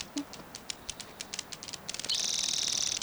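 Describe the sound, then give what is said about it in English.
Grasshopper flying by: scattered faint ticks and clicks give way to a sustained, rapid crackling rattle of wings over the last second, high and buzzy. “Grasshopper flying by.”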